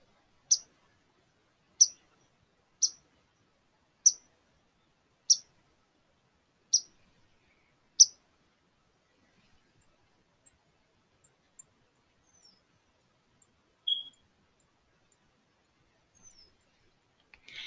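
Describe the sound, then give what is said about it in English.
Swamp sparrow song: seven sharp, high notes spaced evenly about a second apart, then a run of fainter, thinner high notes and a brief louder burst near the end, with no voices. “And that was the swamp sparrow.”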